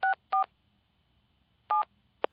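A telephone number being dialed on a keypad: a few short, quiet dual-tone beeps at uneven intervals, two close together, then a pause before the next, followed by a briefer final blip, with no talking.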